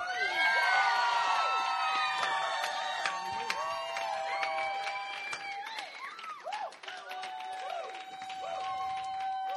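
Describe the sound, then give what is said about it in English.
A crowd cheers and claps to welcome a guest speaker named Carl, with loud whoops, high shouts and rolling applause overlapping throughout. “And I want you guys to give Carl the loudest welcome you have ever given a guest speaker.”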